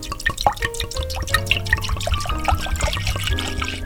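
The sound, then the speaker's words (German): Red wine poured from a bottle into a cooking pot: a run of bubbly glugs, drips and splashes with an uneven rhythm, moderately loud throughout. “Dann nimmst du die Rotweinflasche und leerst den ganzen Wein in einen Kochtopf rein.”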